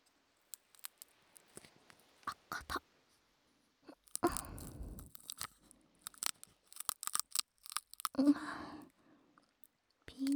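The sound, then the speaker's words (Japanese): A sharp, crunching crack comes from teeth biting into a hard shell too tough to split with fingernails. It is a brief burst amid quiet scattered clicks and faint murmured voices. “爪では割れない。失礼します。やっぱかじるしかないよね。”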